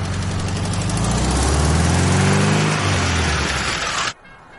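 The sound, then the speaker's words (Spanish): A car engine starts and drives off, a loud, steady rumbling hum that swells and shifts in pitch as the vehicle pulls away, then cuts off abruptly near the end. “La joven sube al vehículo y este se pone en marcha.”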